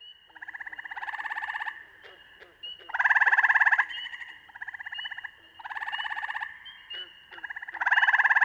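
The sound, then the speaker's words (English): Gray tree frogs trill in spring, with several overlapping calls. Each is a steady, fast-pulsed buzzing trill lasting about a second, and the trills repeat and alternate almost without a break at moderate volume. “In spring, the trills of gray tree frogs”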